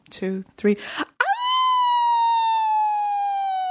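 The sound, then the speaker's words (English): A person imitates a howl for a howling contest, giving a long, sustained, voiced wail that sinks slightly in pitch after a few brief vocal sounds, loud and alone. “You want to have a howling contest? Yeah. Okay, you go first.”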